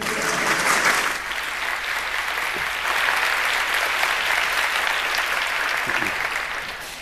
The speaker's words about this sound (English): let's give him a hand